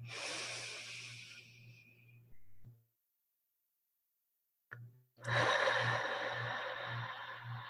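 Deep inhale and exhale breathing during a guided meditation: two long, breathy rushes of air separated by a silent pause, over a soft, low pulsing tone.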